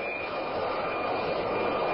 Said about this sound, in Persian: در میانه جنگ ایران و عراق یک جت فالکون ایرانی در فرودگاه بغداد به زمین می‌نشیند.